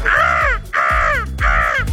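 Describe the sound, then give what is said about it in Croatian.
Three loud, harsh seagull-style cries over a song with a low, steady beat, each call drawn out and falling slightly in pitch, repeating at an even pace. “Sjetio sam se da smo nekad oponašali Galebove, pa ako pustim slušatelja otvorenog kao Galebove preko ove pjesme, dobit ćemo još ljetniju pjesmu, pa ajmo pokušat.”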